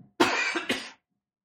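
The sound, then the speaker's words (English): A person coughs once in two quick bursts, the first louder and longer, heard alone with silence on either side. “Hold on, I have to cough.”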